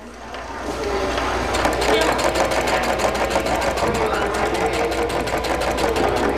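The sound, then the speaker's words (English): Sewing machine stitching at a ribbon skirt workshop at the Barona Recreation Center, running as a steady, rapid mechanical needle rhythm that starts after a brief quiet moment and continues loudly to the end. “Talia Baller is at a sewing workshop at the Barona Recreation Center. She's learning to make ribbon skirts”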